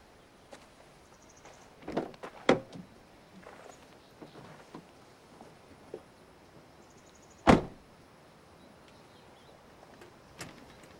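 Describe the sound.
Car door sounds as a man gets into a car: scattered soft clunks and rustles over a quiet background, then a single loud door thump, and later a lighter knock.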